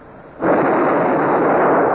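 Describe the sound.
Ship's cannons fire during a naval battle with the vessel run aground: one sudden loud blast that swells at once into a broad, sustained rumbling roar lasting to the end.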